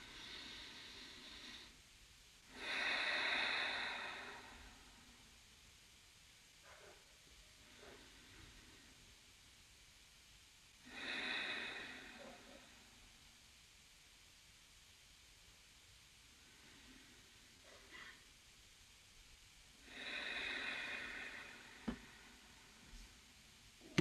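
A person takes three slow, deep breaths, inhaling through the nose and exhaling through the mouth. Soft airy exhales are spaced evenly, with fainter inhales between them, all quiet against a low steady hiss.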